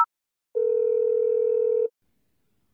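A steady telephone tone sounds as someone dials the 110 emergency number: one unbroken, mid-pitched hum lasting just over a second, clean and alone between brief snippets of other sound.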